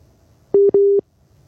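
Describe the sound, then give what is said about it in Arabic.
A dropped phone call ends in a busy tone: two loud, flat, mid-pitched beeps in quick succession, followed by silence. “طيب انقطع الاتصال، عندنا اتصال آخر.”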